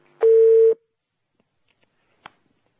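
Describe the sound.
A telephone line tone sounds as a caller is connected: one short, steady mid-pitched beep, followed by near silence and a single faint click.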